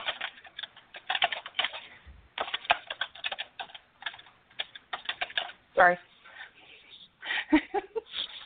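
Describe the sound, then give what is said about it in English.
Loud typing on a computer keyboard: rapid, irregular clacking keystrokes running almost continuously, with many clicks in quick bursts and short pauses between them. “Loud ass typing.”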